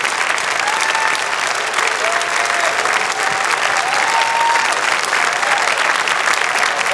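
Audience applause welcomes a guest onto the stage, steady and loud clapping that fills the whole stretch evenly with no let-up.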